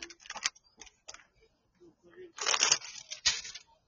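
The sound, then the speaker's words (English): Playing cards being put away give off scattered light clicks and taps, then a couple of louder papery rustling bursts as the cards are slid and packed together. “There we go. Put my cards away.”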